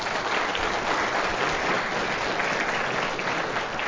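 Applause from a church audience welcoming visiting guests during a Sunday service: dense, steady clapping at an even level from start to end, with no voices over it.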